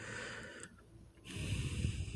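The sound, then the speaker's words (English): A person taking a deep breath, an airy, breathy hiss broken by a short pause, then a longer, fuller rush of breath. “I'm taking a deep breath, right?”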